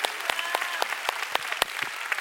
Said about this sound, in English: Come on, church, let's give the Lord a big clap.